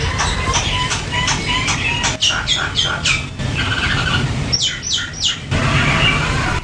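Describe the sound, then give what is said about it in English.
Tropical birds sing in trees beside a hotel bungalow in Nadi, Fiji, giving short bursts of quick, repeated high chirps over a constant bed of background noise. “I could always listen to the tropical birds singing in the trees right beside my hotel bungalow”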